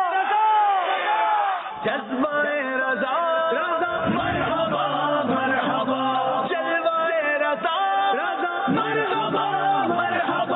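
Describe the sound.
A crowd shouts back a slogan in response during a team quiz competition. Many voices chant loudly in unison with sustained, wavering calls, briefly dipping around two seconds before surging again.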